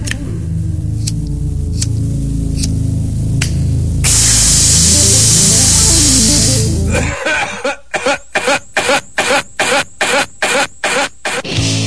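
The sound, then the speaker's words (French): Rolling and lighting a cigarette with a lighter: a few faint clicks, then a loud, steady hiss for about three seconds, after which a fast run of rhythmic pulses takes over. “Le papier. Le tabac. Le briquet.”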